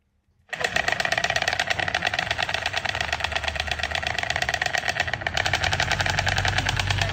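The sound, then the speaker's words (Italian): Storks at Uznach in Canton St. Gallen clatter their bills in a loud, rapid, machine-like rattle. It starts abruptly after a moment of quiet and then runs on without a break. “Questo che rumore è? Che si chiama degli schiamazzi, perché è il verso delle cicogne, e con la mia amica Mandy siamo atterrate a Uznach, siamo nel Canton San Gallo ed è la capitale svizzera delle cicogne.”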